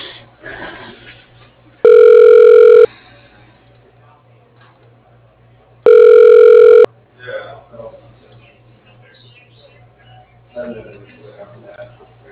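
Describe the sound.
A telephone ringback tone plays while a call is transferred to voicemail: two steady, bright electronic rings about one second each, separated by a pause, with faint murmuring sounds between and after them.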